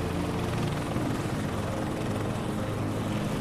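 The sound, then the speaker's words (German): Helicopter rotor blades turning on the ground before lift-off: a steady, loud, thudding drone of rotor and engine that holds an even level throughout, with no voices. “Die Rotorblätter beginnen sich zu drehen. Staub wirbelt über den Boden. Dann hebt ihr ab.”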